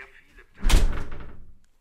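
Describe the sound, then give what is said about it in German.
A door being closed: one heavy thump with a short rumbling decay that fades out, preceded by faint low background noise. “Kannst du die Tür bitte zumachen?”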